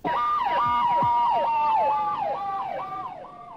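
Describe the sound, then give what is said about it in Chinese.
An ambulance siren wails around Tiananmen Square in Beijing during the 1989 student hunger strike. Its loud pitch sweeps up and down in quick, regular cycles, and it holds steady before easing slightly toward the end. “在广场附近经常听到救伤车的警号声”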